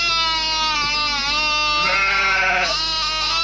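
A sheep bleats in one long, loud, quavering cry that wobbles in pitch and carries on for the whole stretch.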